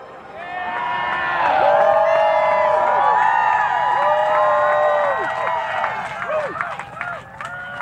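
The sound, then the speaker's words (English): A crowd cheers and whoops at a total solar eclipse. Many overlapping voices rise and fall in pitch, staying loud for several seconds before thinning into scattered shouts. “You heard the cheering. That was good.”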